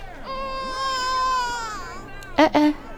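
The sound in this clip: A baby girl fussing and crying at a mela: a drawn-out, wavering wail, followed by two short, sharp cries near the end.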